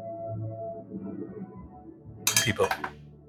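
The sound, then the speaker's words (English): A bottle being opened, a short cluster of sharp clicks and glassy clinks near the end that follows a stretch of low talk. “But because it tastes like steak, I opened up my bottle.”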